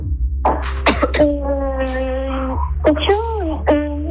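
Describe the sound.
A person coughs after swallowing dust, with a few sharp coughs at the start, then strained, voiced throat sounds and more coughing toward the end.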